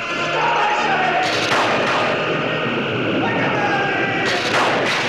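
Starship weapon banks firing without pause during a battle. The result is a loud, dense roaring crackle with swooping tones that drop in pitch as new bursts cut in.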